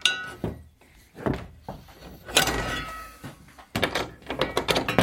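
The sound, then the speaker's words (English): Fireplace poker wedged into the padlock of a door and pried open, producing an uneven series of metallic clinks, knocks and thunks, with a longer grinding scrape midway and rapid rattling at the end. “He wedges the poker into the lock and pries it open.”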